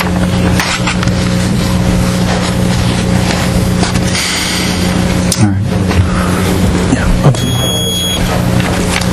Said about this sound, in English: If memory serves me correct, this is the Y2K generator. Y2K, it was somewhere in the neighborhood of $400,000.